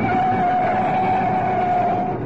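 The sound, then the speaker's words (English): A car being driven fast down a clear road, heard as a steady, loud engine and road drone with a constant whining tone running throughout and no voices. “Nice driving. Now you've got a clear run down Oxford Road. Step on it.”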